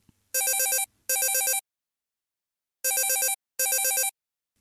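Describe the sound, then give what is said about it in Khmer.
A mobile phone rings with a loud electronic warbling ringtone: four bursts of bright, trilling tones in two pairs, with a pause between the pairs, and no voices. “ហេទូរស័ព្ទមួយណារត់ប្រញាប់លឹកវាទៅ វារំខានដល់ពួកយើងមើលការផ្សាយផ្ទាល់”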